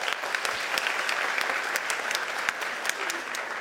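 Audience applause at a comedy roast: dense, steady clapping that runs evenly through the whole clip with no break.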